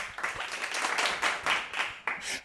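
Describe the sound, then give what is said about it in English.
A canned audience-reaction effect fired off during a live show: a burst of clapping and crowd noise that swells and dips unevenly for a couple of seconds, then cuts off with a sharp final hit. “I didn't know you could make the audience come in while we're live. That was just random.”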